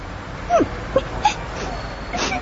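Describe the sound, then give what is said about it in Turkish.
A lost child who misses their mother whimpers and sobs, a few short, broken, high cries spread over steady background hiss. “Ağlıyor musun sen? Neden ağlıyorsun bakayım?”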